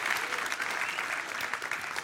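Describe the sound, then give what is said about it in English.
Applause from an audience at a church gathering: steady, dense clapping from many hands, moderately loud and continuous throughout. “I expected like applause or something like that.”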